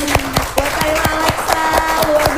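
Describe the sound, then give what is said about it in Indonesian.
Hands clap in quick, steady unison to thank a guest, about a dozen sharp beats evenly spaced at a brisk tempo, with a tonal hum running underneath. “Sekali lagi kita tepuk tangan dulu.”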